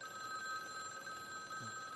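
A mobile phone rings with a faint, steady electronic tone that continues throughout.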